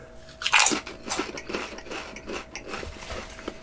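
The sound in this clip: Crunching of seasoned potato chips: one sharp bite, then a run of quieter, irregular chewing crunches over a faint steady hum.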